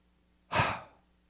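A single exhaled breath, a soft airy whoosh that swells quickly and trails off in under a second, heard alone against near silence.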